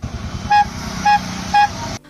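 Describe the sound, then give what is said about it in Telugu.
Three short, evenly spaced horn toots from an arriving auto-rickshaw, sounding over a steady engine hum that cuts off abruptly near the end. “Auto వచ్చింది నాన్న.”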